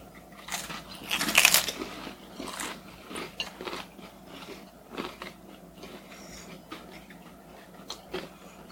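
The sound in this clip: Crunching bites and chewing as people eat heavily processed tinned eel, bones and all; a loud cluster of crunches comes early, followed by steadier, softer chewing.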